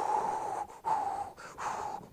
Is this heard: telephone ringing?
no